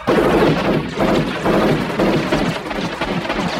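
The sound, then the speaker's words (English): Heavy film gunfire as police shoot up a robot cop, a loud, dense, unbroken roar of shots with no pauses or voices. “the cops who all work for OCP are there, and they shoot him up like crazy.”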